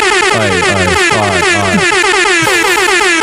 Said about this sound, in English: Oh, we have got an air horn. Hey. Where did that come from?